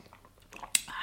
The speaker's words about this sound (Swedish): Jag tar en klunk kaffe.